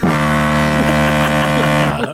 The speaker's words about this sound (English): Oh, good honk. That was a good honk.